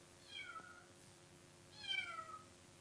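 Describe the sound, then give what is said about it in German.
A cat meows outside a quiet workshop on a cold, rainy day. There are two faint, high calls, each falling in pitch, and the second is louder. “In der Werkstatt lief gerade keine von Meister Eders lärmenden Maschinen, und so war es derart still, dass man deutlich ein Miauen hören konnte.”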